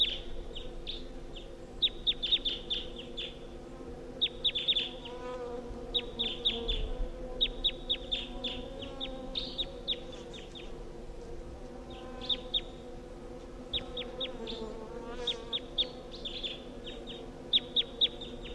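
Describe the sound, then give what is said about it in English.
A wild bird calls from the top of a tall pine: many short, high, bright chirps come in repeated clusters over a steady low hum. “there's a wild bird here. That's it calling from the top of the tall pine.”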